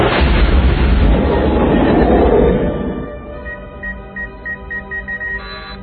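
A weapon is fired on command: a loud, roaring rush lasts about three seconds, then drops to a lower rumble while a rapid run of short electronic beeps sounds over it.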